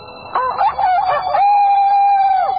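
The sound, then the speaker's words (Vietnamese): A rooster crowing at dawn, one loud crow heard alone: a few broken, rising opening notes lead into a long sustained call that drops away sharply at the end. “bèn giả làm tiếng gà gáy, tiếng gà gáy sáng”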